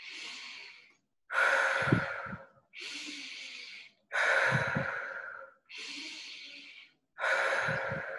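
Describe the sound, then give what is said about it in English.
Deep breathing, drawn in through the nose and released through the mouth, in slow airy breaths separated by short pauses, each breath loud and breathy with a soft rasp, about three full cycles. “Nose for the inhale with intention, exhaling out through the mouth with intention.”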